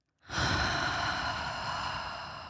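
Deep breathing, a single long, airy breath that begins abruptly after a moment of silence. It holds steady at a fairly loud level and eases off slightly toward the end.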